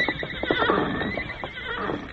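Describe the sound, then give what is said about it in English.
A horse whinnies, the animal standing hitched at a rack before a hotel on a deserted town street; a wavering, high neigh runs for about two seconds with no talk over it. “That's Tonto's horse, Scout. Go, Silver, go.”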